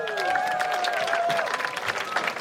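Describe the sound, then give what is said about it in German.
Audience applause: dense, steady clapping that holds at an even level through the whole short clip. “Einen Applaus.”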